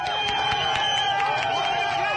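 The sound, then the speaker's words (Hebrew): A crowd roars in ecstasy at night as a poster is pulled down from a pole, a loud, sustained mass of shouting voices with a steady, regular pulse running through it. “ואז, ההמון שנמצא מחוץ לפריים ורואים רק את הידיים שלו, שואג באקסטאזה.”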